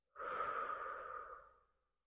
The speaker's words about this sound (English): Inhale through the nose and exhale out of the mouth.